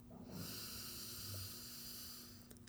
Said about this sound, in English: Deep breath.